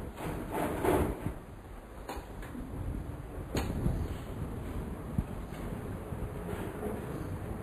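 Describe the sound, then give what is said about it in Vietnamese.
A machine case box is opened, with a few sharp clicks and knocks over a faint steady hiss. “Mình xin mở xin cái hộp máy.”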